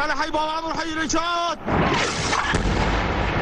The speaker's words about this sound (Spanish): Parecen bombardeos de saturación con proyectiles que caen indiscriminadamente sobre la parte suní de la ciudad, especialmente en los barrios de Khalidiyah y Babahar, donde se concentran los rebeldes sirios. A este último barrio corresponde el sonido que escuchamos.